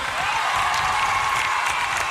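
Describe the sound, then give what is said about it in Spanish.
Applause from an audience for a performer's daughter, a continuous dense wash of clapping at an even level without distinct individual claps. “aplauso a mi hija”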